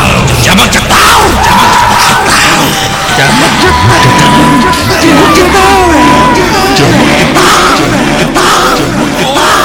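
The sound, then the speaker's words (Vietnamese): Bleeding old women shout loudly in unison, a dense and continuous wall of yelling voices that stays loud and rough throughout. “Họ đều bị chảy máu và đồng thanh hét tướng lên”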